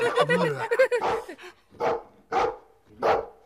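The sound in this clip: A dog barks several times in loud, sharp bursts spaced about half a second apart, following a stretch of a person talking at the start.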